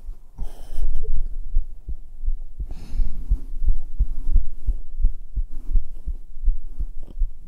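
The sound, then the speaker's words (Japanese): A strong heartbeat, recorded up close against bare skin with a binaural microphone, beats in many steady, evenly spaced low thumps. Each thump is loud and deep and is backed by a soft hum, with no talk. “心音激しいのがいいの？じゃあ女がもっとドキドキできるように、ドキドキさせるようなこと言ってよねえ。”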